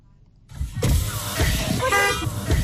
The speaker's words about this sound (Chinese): 当天下午，狭窄的进村道路车辆通行缓慢